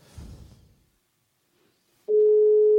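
Ringback tone of an outgoing telephone call: after a short faint stretch, a steady, loud, mid-pitched electronic tone sets in abruptly and holds unbroken to the end.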